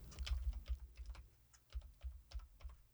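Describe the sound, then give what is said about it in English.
Keystrokes on a computer keyboard, with many quick clicks in an uneven rhythm and short pauses between runs, heard alone without talk. “Wow, he typed it all correctly.”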